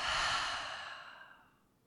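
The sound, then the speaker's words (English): A single long, breathy exhale out through the mouth during a guided relaxation exercise, soft and airy, starting fullest and gradually fading away over about two seconds, with no voice over it. “take a deep, deep, long breath in through the nose. Open the mouth and let it out.”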